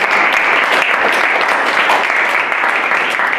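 Church audience clapping and cheering for two guest pastors, a loud, dense, continuous wash of applause with no pauses.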